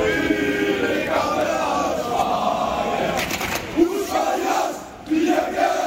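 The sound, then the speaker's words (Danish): Football fans sing and chant together at a match in Haderslev where Randers are the visitors. The massed voices form a steady, loud choral roar with rhythmic sung phrases. “Det er korsang, der vil noget det her. Lidt tidligere kl. 14 vil det måske lyde sådan her i Haderslev, hvor Randers er gæster.”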